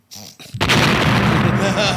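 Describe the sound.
Bomb explosion sound effect dropped during a hip-hop freestyle, a sudden booming burst that swells into a sustained, loud rumbling roar after a brief voice.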